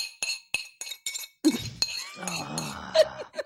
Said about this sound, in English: So I have my bowl and it would be finished, but there would be like a tiny little bit of milk still in the bottom with a bit of cereal.